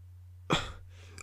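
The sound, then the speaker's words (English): A person trying and failing to burp makes a short, throaty croak that trails off, followed by a faint second click from the throat. “I just tried to burp 4 times and none of them worked.”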